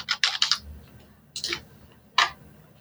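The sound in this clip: Typing on a computer keyboard: a quick flurry of crisp clicks, then two short, separate bursts of keystrokes against a quiet background.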